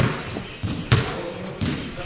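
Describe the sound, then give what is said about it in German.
Basketball bouncing and dribbling on the floor of a bright gym with wood-clad walls: a few separate, irregularly spaced thuds stand out over a low, busy background. “Sie stellen sich unterm Korb und in der Mitte des Spielfeldes auf und beginnen damit, den Ball hin und her zu prellen und zu passen.”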